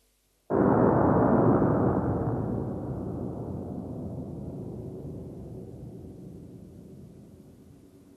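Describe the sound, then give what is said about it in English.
A starting pistol shot from a lecture theatre, replayed at one-sixteenth speed, turns into a deep roaring burst after brief silence, then rumbles on and slowly fades over several seconds. “So if we replay that pistol shot at 1/16th of real speed, you'll get a better idea.”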